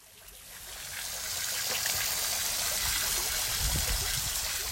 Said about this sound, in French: C'est un dragon d'eau, c'est pour ça qu'il crache de l'eau.